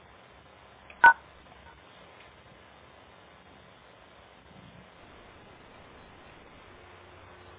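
A single short telephone keypad beep rings out once on a conference call, sharp and clear against faint background hiss, with near silence afterwards.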